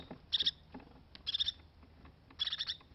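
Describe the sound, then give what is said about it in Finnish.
Crested tit song: three separate bursts of rapid, high, bright trilled notes, each lasting a fraction of a second, spaced apart over a faint background. “Tämä äänekäs ja soinniltaan iloinen laulu kuuluu töyhtötiaiselle.”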